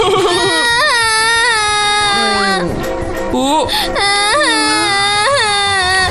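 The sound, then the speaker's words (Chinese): Loud, continuous high-pitched wailing and sobbing from a cartoon character, the pitch wavering and bending throughout the whole stretch with only brief catches for breath. “大草莓怎么哭了？”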